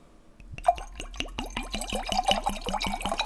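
Kahlua liqueur pours into a glass of vodka in a quick series of regular glugging gurgles. Many rapid liquid pulses start after a brief quiet moment and stay moderately soft.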